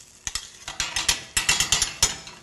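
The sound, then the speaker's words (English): Spoon stirring sriracha into melted butter in a pan for popcorn, a rapid run of many sharp scraping clicks in an uneven rhythm, moderately loud, with no talk. “Now we stir in the sriracha.”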